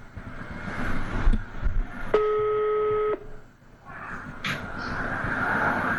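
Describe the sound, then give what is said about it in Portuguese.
A telephone ringback tone sounds while a call is being placed: one steady electronic tone lasting about a second, set against low background rumble and noise. “Bora fazer as pazes com alguém. Boa. Tá chamando.”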